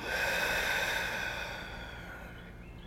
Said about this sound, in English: take a nice deep breath in and a long breath out